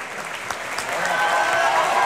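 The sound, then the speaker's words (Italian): Audience applause for a singer in an opera house in Florence: thick clapping that builds in loudness after the first second and then holds full and steady. “adesso invece molti applausi per Sesto Pompeo, Niccolò Balducci,”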